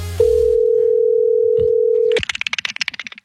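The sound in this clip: A telephone dial tone sounds while a call is being placed: one steady, unbroken tone holds for about two seconds, then cuts off into a series of short, choppy bursts.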